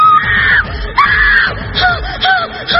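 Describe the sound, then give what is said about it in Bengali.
A woman screams again and again in high, strained cries. Two long wails come first, followed by several shorter, sharper screams, all loud and with no other sound. “উল্টো দিকের ঘর থেকে একটা মেয়ে বেরোল, আনিসকে পড়ে থাকতে দেখে চিৎকার করা শুরু করল।”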